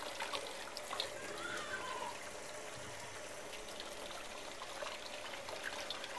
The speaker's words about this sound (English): Let's go wash my hands off.